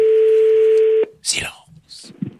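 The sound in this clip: A steady telephone tone sounds as a call is placed to a radio game show contestant, holding for about a second before stopping abruptly, followed by brief noisy bursts and faint breathy sounds.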